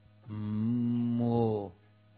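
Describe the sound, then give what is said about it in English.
A cow in a herd on the bank of the Ganga gives one long, low moo that lasts about a second and a half. The call is sustained and steady, heard alone with no talk. “mooing and drinking the cool and pure Ganga water.”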